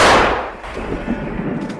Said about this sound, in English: That was the sound of an American-made M777 howitzer, a powerful, towable, and easily hidden long-range artillery weapon.